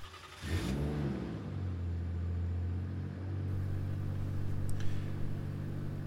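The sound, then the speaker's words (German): A car pulls away with its engine revving up briefly, then settling into a steady, fairly loud low drone that continues through to the end, with no talk. “Aber genug geredet, fahren wir überhaupt einmal los, weil deswegen fahren wir ja erst.”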